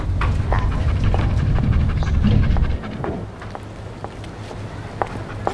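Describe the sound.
A dog panting as it walks into a building, with quick breaths and light clicking steps. A heavy low rumble fills the first half and cuts off abruptly, leaving scattered footfalls and soft panting.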